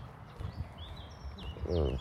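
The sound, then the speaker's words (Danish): Birds singing by a lake along a muddy dirt path: a few faint, high chirps and short whistled calls over a low background, with a voice briefly heard near the end. “Her er der andre fugle, der synger. Kan du høre det?”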